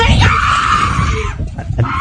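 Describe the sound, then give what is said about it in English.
A woman screams: a loud, harsh, sustained shriek that fills the whole clip and wavers slightly before breaking up near the end. “So he grabs her arm, and then she starts screaming.”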